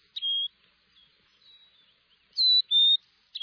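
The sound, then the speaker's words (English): A Carolina chickadee calling with a few clear, high whistled notes spaced by pauses, two of them close together near the end, thin and fairly quiet with no other sounds. “This, by the way, is a Carolina chickadee, so it's probably a southern accent. It elongates its vowels.”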